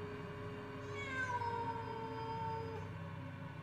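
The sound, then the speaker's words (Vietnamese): A feral cat perched on a persimmon tree branch yowls in one long, drawn-out, wavering cry, faint and sustained for several seconds. “Đáp lại ông là tiếng con mèo hoang. Nó đậu ở trên cành cây thị, nó cào móng xèn xoẹt, nó kêu lên từng hồi.”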